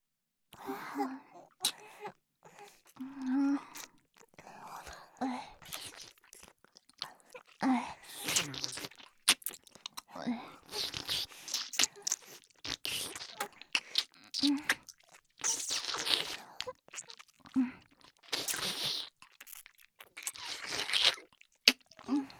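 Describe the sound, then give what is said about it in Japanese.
Someone chews and crunches chocolate, with many soft crunches and wet mouth sounds in an irregular rhythm, mixed with breaths and other quiet mouth noises throughout. “いいよ、一緒にチョコ食べよう。口移しで入れてあげる。”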